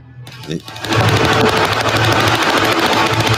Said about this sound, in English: firing a machine gun there. Obviously, it's not a real machine gun. It's a prop with blanks.